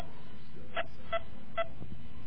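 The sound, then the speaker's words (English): Telephone keypad dialing tones sound on a phone line: three short, evenly spaced beeps over a faint, steady line hiss. “Ooh, we're having a little technical problem. That's a phone. That's a phone thing.”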